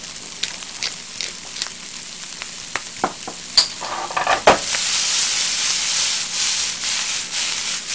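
Fried rice sizzling in a pan: scattered light clicks and scrapes from stirring come first, then a loud, steady hiss of frying takes over for the second half.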